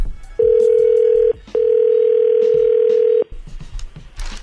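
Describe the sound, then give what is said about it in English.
A telephone dial tone sounds while a call is being placed: a loud, steady low hum in two stretches, a short one and then a longer one separated by a brief gap, followed by quieter line noise. “We're going to call Stephanie. She's not going to know you on the phone, okay?”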